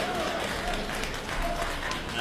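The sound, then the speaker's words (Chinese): Brief audience applause at a Chinese opera and folk performance, a soft, even patter of clapping. “这个大家鼓掌，再来一段。”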